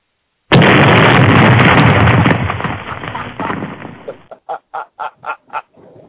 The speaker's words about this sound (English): Play the boom sound effect, Eddie. Play the boom.